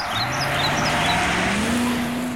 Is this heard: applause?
no